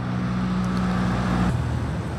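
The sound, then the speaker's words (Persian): A truck passing on the road, a loud, broad rumble with a low engine drone that shifts down in pitch partway through as the vehicle goes by. “دوستان یه کامیون داره رد میشه، فکر کنم دیگه باید پوز بزنم.”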